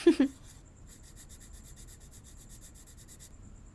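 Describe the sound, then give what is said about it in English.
Sketching of a person's eyes: faint, light rhythmic scratching strokes that repeat steadily after a couple of soft bumps at the start, quiet and without voices. “Yes, I'm sketching your eyes. So, stay very still.”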